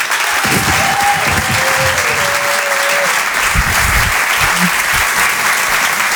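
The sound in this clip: A comedy club audience breaks into dense, steady applause that stays loud from start to finish.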